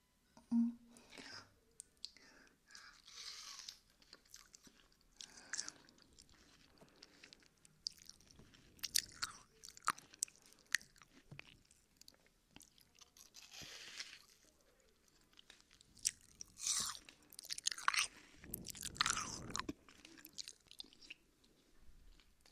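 People eating a meal together make quiet chewing, crunching and smacking sounds that come in many soft, scattered bursts over a long stretch.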